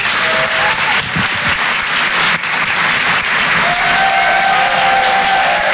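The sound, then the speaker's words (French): Comedy club audience at the Apollo Théâtre in Paris applauds as a comedian is introduced. The clapping is loud and continuous, holding a dense, even level throughout. “Je vous demande de faire un maximum de bruit, s'il vous plaît, pour Richard Sabac.”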